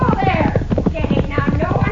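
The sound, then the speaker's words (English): A radio drama sound effect of a horse lunging and rearing: rapid, clattering hoofbeats pound continuously while voices talk over them. “The way that horse is lunging and rearing, he's going to hurt that senora.”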